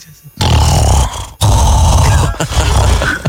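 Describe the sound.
A person imitates another man's loud snoring: two long, harsh, rasping snorts, the first about a second long and the second longer, separated by a brief gap, with no words spoken.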